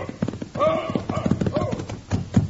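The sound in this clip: Horse hooves clip-clop along a road as a lathered horse, ridden hard, carries its rider in. The hoof beats come as a brisk, rhythmic clatter of many loud strikes that carries on throughout.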